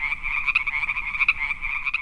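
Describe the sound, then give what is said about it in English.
Toads escaping across a classroom croak in a continuous, rapid trill, a high buzzing pulse that warbles steadily with no pauses and no voices. “Escaping toads leap about the classroom.”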